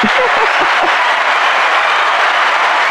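Studio audience applause: a dense, steady wash of clapping that stays loud and even for the whole stretch, with no pauses.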